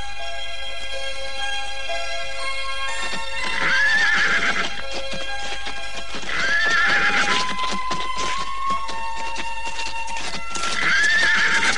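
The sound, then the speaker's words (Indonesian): Horses neighing while soldiers mount at a palace gate, with hooves clip-clopping: three high whinnies at intervals ride over a steady patter of hoof clops. “Dan ketika mereka tiba, semuanya segera naik ke kuda.”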